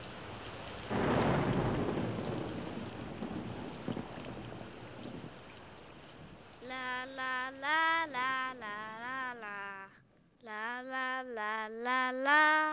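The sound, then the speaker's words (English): Rain patters steadily with a brief low rumble early on, then clear melodic tones take over for the second half. “the patter of rain. All of these sounds are parts of nature's music.”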